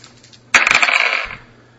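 Dice clatter onto a table during a tabletop role-playing game: a sharp first impact, then a short run of rapid rattling clicks that fades out after about a second.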